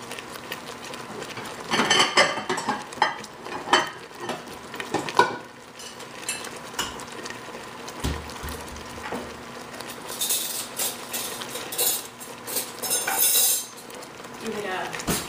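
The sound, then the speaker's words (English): Cutlery and dishes clink and clatter in a kitchen during cooking as a spoon is fetched, with irregular bursts of metallic chinks and scraping while a voice talks at times. “I'm going to go grab a spoon.”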